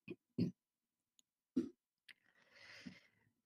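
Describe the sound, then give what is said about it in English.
A few short coughs from a person with a mild cough, spaced irregularly, followed by a longer breathy rasping noise; faint, with no talk over it. “excuse me, I have a bit of a cough.”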